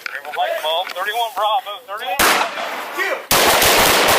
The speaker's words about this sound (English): Shots fired. Shots fired. Watch it.